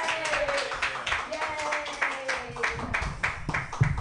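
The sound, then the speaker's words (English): Audience applause at an open mic comedy night as a comedian is called up: a steady stretch of scattered, rapid hand clapping, with voices and cheers mixed into it throughout. “Everybody put your hands together for Kelly Evans.”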